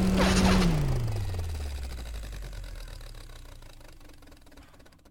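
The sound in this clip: A machine powers down with a whirring, engine-like hum that slides steadily downward in pitch over a few seconds and fades, leaving a faint low rumble.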